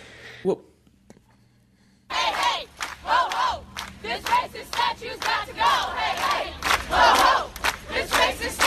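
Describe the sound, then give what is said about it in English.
Protesters at UNC Chapel Hill chant over the fate of the Silent Sam statue. After a near-silent start with a single faint knock, a crowd bursts into loud, rhythmic shouted chanting in repeated phrases. “That is the sound of protesters at UNC Chapel Hill, where they are in a quandary about the fate of Silent Sam.”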